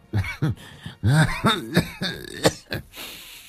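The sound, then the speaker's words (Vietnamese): A voice imitates an old woman coughing hard: several rough, voiced coughs and throat-clearing sounds in uneven bursts, ending with a few sharper, breathy coughs. “Kể đến đây, bà Mọt ho sù sụ. Có lẽ vì phải nói quá lâu.”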